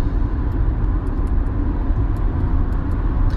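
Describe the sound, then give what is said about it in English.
Steady, loud roar of car and road noise on a freeway, a continuous low rumble that holds level throughout with no voices. “I'm on the freeway and some guy just buzzed right past me.”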